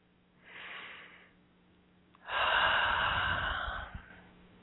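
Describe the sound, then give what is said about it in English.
Deep breathing: a soft, drawn-out inhale, a pause, then a longer and louder breathy exhale. The breaths are heard alone, with no talking. “Couple more deep breaths.”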